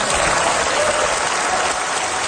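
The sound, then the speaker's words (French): Sustained ovation from members of parliament at a European Union session: dense, continuous applause that holds at a steady, loud level throughout, with no distinct voices. “Mark Carney a eu droit à toute une ovation donc des députés de la Commission européenne.”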